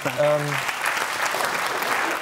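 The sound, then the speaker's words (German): Spontaneous applause from a group in a talk-show round, many hands clapping in a steady patter at moderate volume, with a brief voice calling out over it near the start. “Jetzt kommt hier spontan Applaus in der Runde.”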